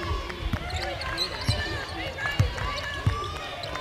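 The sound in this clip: A basketball is dribbled on the court during a women's basketball game, each bounce a low, sharp thump repeating at an uneven pace under crowd noise and voices talking.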